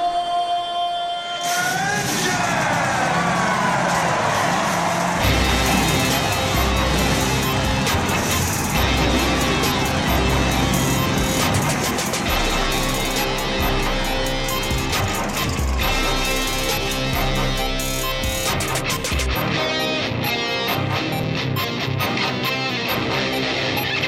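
Race car engines starting up at the call to start: a loud, dense, continuous roar that holds steady for about twenty seconds.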